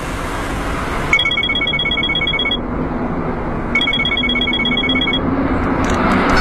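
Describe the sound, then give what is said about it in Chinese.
Ringback tone of an outgoing telephone call: two electronic ring bursts, each lasting about a second and a half with a pause between, pulse over a steady low background rumble. “你给老板打个电话，告诉他我们在这等他。”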